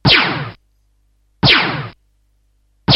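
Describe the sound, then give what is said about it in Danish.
A video game sound for an enemy attack hitting the player: three identical bright, crunchy bursts, each fading out within about half a second and spaced evenly apart, the last one cut short. “One of enemies attack. Og det er, hvis de rammer dig.”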